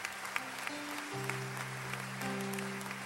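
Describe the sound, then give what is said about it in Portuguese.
A church audience applauding after a scripture reading: steady, dense clapping that stays fairly even throughout. Sustained musical tones hold underneath the claps. “Vamos aplaudir a palavra do Senhor. Pode ser mais forte essa palma.”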